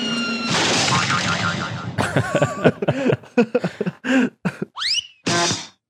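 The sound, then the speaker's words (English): A voice imitates running up and punching with a string of short mouth-made bursts, thumps and clicks in quick succession. Near the end come a couple of rising, whistle-like sweeps and a final noisy burst. “That's me running up and punching it one more time.”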